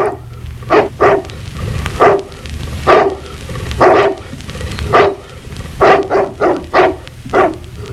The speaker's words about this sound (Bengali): রয়ে গেল ভৌ ভৌ, রয়ে গেল আর একখানা ছোট্ট কুকুর